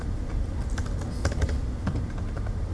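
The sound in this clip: Rapid typing on a computer keyboard, with quick, irregular key clicks at a moderate level and no talk over them.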